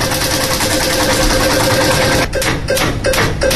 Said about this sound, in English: So it is time to spin the birthday lotto wheel. Let's do it right now.